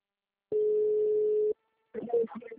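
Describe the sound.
A voicemail beep sounds on a phone line after the mailbox greeting. It is a single steady, pure tone held for about a second, and a brief voice follows after a short pause.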